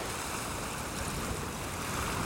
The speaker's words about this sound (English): It's like the sea beckons with the waves.